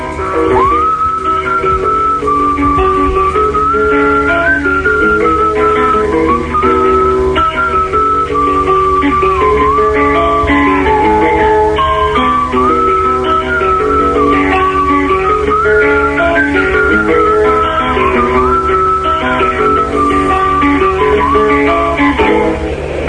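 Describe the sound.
A person whistles a song tune in one long, unbroken melody. The pitch wavers up and down in a clear, bright tone, with steady lower tones beneath it.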